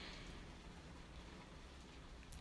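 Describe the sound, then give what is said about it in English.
Rain beating on the windows and roof of a bungalow: a dense, unbroken hiss of drops at a steady level, with one slightly sharper tap near the end. “This is the sound of rain beating on the windows and the roof of my bungalow.”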